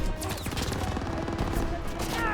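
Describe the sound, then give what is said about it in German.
Machine gun fire in a sniper shooter video game, a loud, dense rattle of rapid shots that keeps going without pause. “Ach, die haben auch eine MG. Echt? Ja, die haben auch eine MG.”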